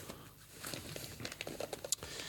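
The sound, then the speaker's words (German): Gift wrapping paper around a soft, pillow-like present crinkles and rustles as it is torn open, with faint, irregular crackles and a sharper tear near the end. “Das ist so ein schönes Geschenkpapier, dass ich damit wirklich ein schlechtes Gefühl habe, das einfach so aufzureißen.”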